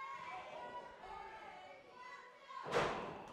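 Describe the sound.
A single heavy thud as a wrestler is slammed onto the mat with a leg DDT, breaking in near the end after a stretch of low, murmuring crowd noise.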